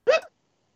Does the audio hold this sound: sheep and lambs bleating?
no